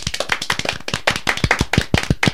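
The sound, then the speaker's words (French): Studio audience applause, heard as many crisp, separate hand claps in a quick, slightly uneven rhythm. They stay fairly loud and steady for the couple of seconds. “Je crois qu'on peut l'applaudir encore une fois.”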